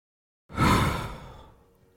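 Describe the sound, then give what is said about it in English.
A deep breath in and out: one soft, breathy rush that swells quickly, then fades gradually over about a second and a half, heard alone. “Can you take a deep breath with me? Breathe in. Breathe out.”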